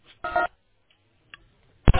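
Telephone keypad tones beep while a number is dialed into an automated phone line: a few short, uneven electronic bursts separated by silence, the last one loudest.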